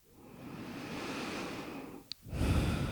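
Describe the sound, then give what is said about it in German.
Deep breathing in a guided yoga relaxation: a long, steady, airy breath, then after a brief pause and a faint click, a second, louder breath. “Wenn du soweit bist, dann nimm ein paar tiefere Atemzüge ein und aus.”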